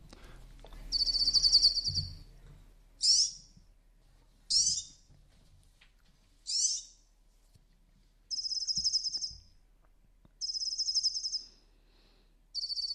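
A European serin, a small finch, sings high, shrill, jingling trills in repeated short bursts separated by brief pauses, with some longer phrases.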